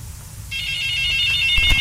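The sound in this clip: Telephone ringing with an incoming call, a steady high-pitched electronic ringtone that starts half a second in and holds unbroken to the end over low background noise.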